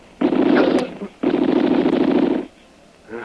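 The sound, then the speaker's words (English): Two bursts of machine gun fire as a drama sound effect, from guns in a position above: rapid, noisy rattles, the first short and the second longer, with a quiet gap between them. “We've got machine guns up there. That's going to make it tough for us.”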